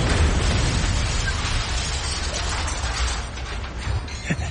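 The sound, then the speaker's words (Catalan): An explosive charge detonates under a car. It makes a loud, broad roaring rumble that holds steady and then gradually fades, with a faint pop near the end. “És el punt exacte on han de fer explotar la càrrega.”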